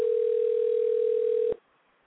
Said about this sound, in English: She's like totally not answering, and it does seem to be going to voice.